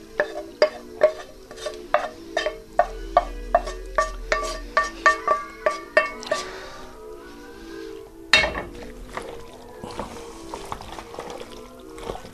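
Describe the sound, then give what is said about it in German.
Asparagus stirred in a pan: many rhythmic clacks and scrapes of a spoon, then a sudden louder burst as more goes in, followed by a denser sizzling, clattering texture. “So, ich tue jetzt den Spargel mit dann runter.”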